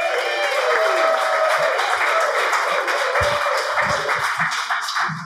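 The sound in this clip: Audience applause greets a speaker being introduced at an evening industry event. The clapping is loud, dense and steady for about five seconds, easing slightly near the end.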